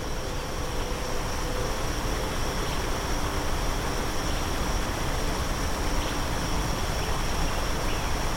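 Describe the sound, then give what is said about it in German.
A small waterfall splashes into water with a constant, even rushing hiss that stays uniform throughout. “Das beruhigende Rauschen wirkt entspannend. Der kleine Wasserfall versetzt die Wasseroberfläche in sanfte Schwingungen.”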